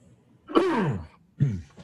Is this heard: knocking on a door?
no

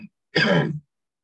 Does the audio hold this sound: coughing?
yes

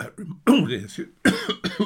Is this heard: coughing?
yes

